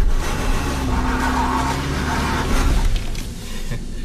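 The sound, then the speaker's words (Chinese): A BMW 5 Series loses grip and its wheels spin as it tries to pull away on a 50% slope. A loud, continuous engine roar mixes with tire hiss and squeal, easing slightly near the end. “只要一出现打滑，立马开始溜车，慢慢给油，走，不要滑，走。宝马五系50%坡道挑战失败。”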